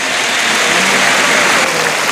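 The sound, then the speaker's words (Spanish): A bullfight crowd in Murcia gives an ovation as the sixth bull is dedicated to the public, a loud, dense and unbroken roar of applause. “ofrecer la faena de este sexto toro al público de Murcia, que le ovaciona rotundamente”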